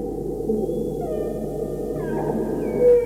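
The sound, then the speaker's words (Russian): A whale calling: several drawn-out tonal whistles and moans, mostly steady in pitch, sounding one after another over a constant low underwater rumble. “Это, конечно, кит.”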